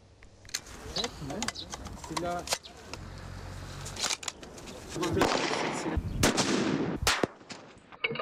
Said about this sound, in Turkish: 4 aylık zorlu eğitimin ardından bu unvanı alan özel görev nişancıları hedefi 12'den vuruyor.